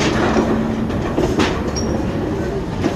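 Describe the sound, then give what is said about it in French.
Steady, heavy rumble of a metal construction lift descending 15 floors, about 53 metres, into the deep site of a future metro station, with a continuous low drone and scattered clatter throughout. “un ascenseur métallique nous emmène 15 étages plus bas.”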